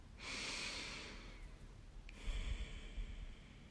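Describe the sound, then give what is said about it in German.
Slow, deep breathing during a guided heart-healing meditation: one long, soft inhale, then a breathy exhale after a short pause. Faint and unaccompanied by talk. “Nimm noch drei tiefe Atemzüge.”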